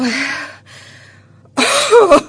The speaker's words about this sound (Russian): Старуха сначала несколько минут откашливается, надрывая свою разбитую грудь и напрягая на дряблой шее все жилы, и потом говорит...